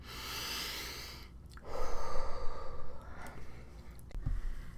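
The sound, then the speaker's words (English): A deep breath drawn in through the nose and let out through the mouth: a soft, airy intake, then a louder, longer rushing exhale, with no talk. “step one is just take a simple big breath in through the nose, out through the mouth”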